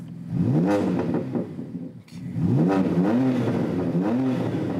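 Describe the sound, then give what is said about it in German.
A BMW car engine, fitted with aftermarket software tuning offering five sound modes, revving several times in a row, each rev a quick rise in pitch with a rough, throaty tone, loud and alone throughout. “Beliebt ist auch nachträgliches Software-Tuning, wie an diesem BMW. 5 Modi hat der jetzt drauf.”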